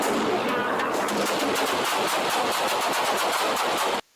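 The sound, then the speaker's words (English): Gunshots fired by a police officer: many loud shots in rapid, even succession, sustained for several seconds before cutting off abruptly. “He took that guy's gun away and shot him with his own gun.”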